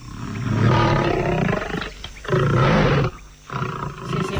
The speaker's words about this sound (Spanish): Tú confía, no es más que un elefante.